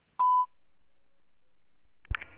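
A voicemail tone on a phone line: a single short, steady, mid-pitched beep, then a long stretch of near silence before a brief burst of another sound at the very end.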